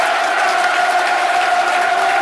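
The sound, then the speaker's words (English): A football crowd applauding the players off the pitch at the end of a match decided on penalties, a steady, dense wash of clapping that stays loud throughout. “The crowd rightly applaud the players off the pitch.”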